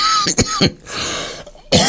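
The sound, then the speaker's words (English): A few sharp coughs mixed with throat clearing come from a person on live radio. The coughs are loud, abrupt bursts, with two close together near the start and a final one after a pause. “You see, you don't normally get coughing live on the wireless.”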